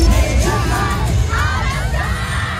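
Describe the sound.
A dense crowd of concert fans outside a concert arena screams and cheers as a performer shakes their hands, a continuous loud wall of high shrieks and yells.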